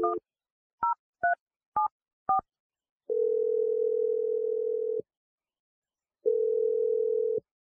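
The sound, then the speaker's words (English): Touch-tone telephone dialing: five short two-note beeps as a number is keyed in, followed by two long, steady, mid-pitched tones separated by a pause. “I'm going to dial her number right now. Here we go.”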